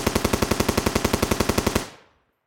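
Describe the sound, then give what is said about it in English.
Machine gun fire as a sound effect: a loud, rapid, evenly spaced burst of many shots lasting nearly two seconds, then a short fading tail into silence, with no voices. “Did we kill them with machine guns?”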